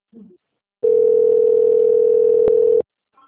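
Telephone dial tone heard while a call is placed to discuss a loan: one steady, loud, even tone lasting about two seconds, with a brief click near its end and faint sounds just before and after.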